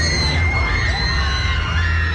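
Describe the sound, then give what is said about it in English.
Crowds scream at La Ronde amusement park in Montreal, with loud, high-pitched screams and shouts overlapping in a continuous wash. “That is a sure sign of La Ronde. Just the screaming.”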